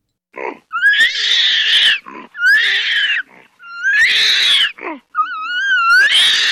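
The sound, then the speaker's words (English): Orangutan cries, the red ape of the jungles of Borneo and Sumatra, in a series of loud, long, wavering wails that swoop upward at their starts, separated by short, rough, breathy gasps. “That's the cry of an orangutan, the red ape that lives in the steamy jungles of Borneo and Sumatra.”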